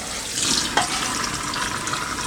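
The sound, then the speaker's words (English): Water runs steadily from a tap as something is rinsed off, a continuous bright hiss with one brief knock partway through and no talking. “so we can kind of just get that rinsed off there.”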